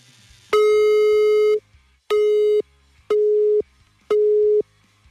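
Telephone busy tone after a call is hung up: four steady, loud electronic beeps, the first one long and the following three shorter and evenly spaced, with silence between them and no voices.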